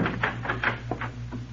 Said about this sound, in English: Somebody's unlocking the door.